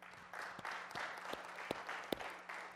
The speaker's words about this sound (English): congratulations, Good Shepherd, all of you. Give yourself a big hand.